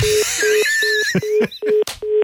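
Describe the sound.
Telephone redialing a call, a run of short, evenly spaced beeps at one steady pitch, with higher warbling tones over the first half and a few brief clicks between the beeps.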